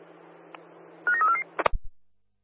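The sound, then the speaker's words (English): Telephone dialing tones: a quick run of steady, clear beeps stepping between pitches, then a few sharp clicks and thumps before silence. “Dialing now, Whiteman Park out.”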